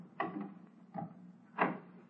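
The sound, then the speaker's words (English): A door being opened in a quiet room gives a few dull wooden clunks and rattles spread across two seconds. The last knock is the loudest. “And it won't be pleasant, I warn you. And let me get this door open.”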